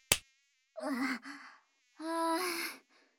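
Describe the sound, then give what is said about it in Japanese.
A mosquito's faint, thin, high whine persists throughout. It opens with a sharp slap, and two strained vocal bursts, gasps or grunts, sound over it. “しとめ損ねました。最近の蚊はすばしっこくって困りますよね。”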